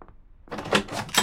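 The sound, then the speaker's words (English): Door being opened as guests arrive, heard as a few quiet clicks and clunks of the latch and handle, with no talk. “I'll get the door.”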